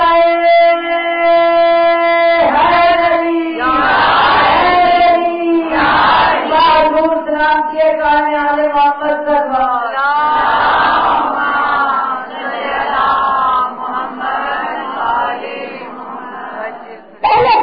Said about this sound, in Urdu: نعرہ تکبیر اللہ اکبر، نعرہ رسالت یا رسول اللہ